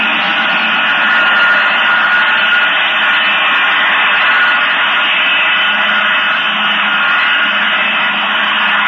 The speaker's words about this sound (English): This report concerns itself primarily with what are called strategic weapons, like these U.S. B-52 heavy bombers.